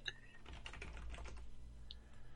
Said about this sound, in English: Let me check. Click, click, click, click.